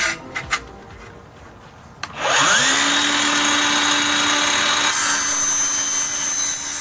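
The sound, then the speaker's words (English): A tabletop miter saw trims a length of track for permanent roofline lighting: a few faint clicks and handling noises, then the motor spins up with a rising whine into a loud, steady cutting roar that runs to the end. “A technician uses a tabletop miter saw to trim a length of track for permanent roofline lighting.”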